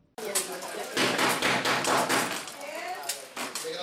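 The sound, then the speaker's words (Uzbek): Knocking on a door during a training session for immigrants about dealing with authorities during raids: a rapid, sustained series of many knocks at fairly even loudness, with voices in the background. “Eshik taqillamoqda. Bu ovoz yig'ilganlar diqqatini tortadi.”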